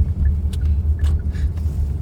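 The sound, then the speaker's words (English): Steady low rumble of a car being driven with its turn signal on, with a few faint ticks over the continuous road hum. “Daddy's driving the car. He just put the blinkers on.”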